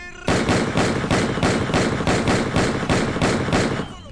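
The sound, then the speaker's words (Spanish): Rapid gunfire sound effect: a loud, dense volley of many sharp shots fired in quick, even succession, with no talk over it. “Así que apuntamos, cargamos y le disparamos directamente al amigo. En el bigote le disparamos.”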